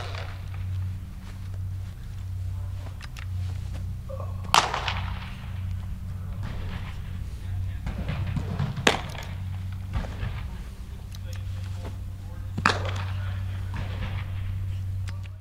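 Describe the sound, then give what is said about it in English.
Baseball pitchers playing catch indoors: a ball smacks into a glove in three sharp, loud pops spaced several seconds apart over a steady low hum. “that was the sound of two of his pitchers playing catch indoors”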